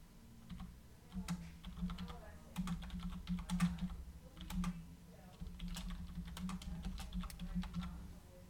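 Typing on a computer keyboard: a quiet, steady patter of many keystrokes in irregular bursts with short pauses between them.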